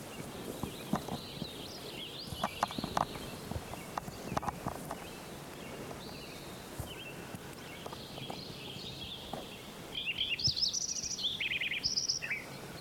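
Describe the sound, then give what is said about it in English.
A sparrow singing quiet, high trilling phrases toward the end, after faint knocking steps and scattered chirps. “Like it's sparrow number 5 again.”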